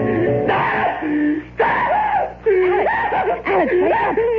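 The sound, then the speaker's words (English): A man screaming and moaning during a nightmare: about four long, anguished wailing cries with wavering pitch, loud and close together. “You were having a nightmare. You screamed and woke me up.”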